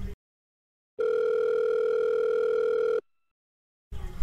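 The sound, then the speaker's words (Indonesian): A telephone dial tone sounds as a doctor places a call. The steady, unbroken tone lasts about two seconds, with brief noises just before and after it. “Dengan segera dokter menghubungi Pak Gista selaku suami dari Bu Nadira.”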